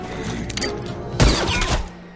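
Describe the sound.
Gunfire erupts in a tense confrontation at a bank over withdrawals: a sudden loud blast about halfway through, then a brief trailing crackle that fades over a low background.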